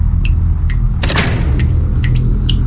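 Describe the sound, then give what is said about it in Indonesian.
A single heavy thud strikes a bathroom door, a dull knock with a short rumbling tail, set among a few faint, sharp clicks over a low steady hum. “Dan suara ketukan itu terdengar jelas kali ini. Mungkin berasal dari pintu yang terakhir, tapi pintu yang ketiga ini.”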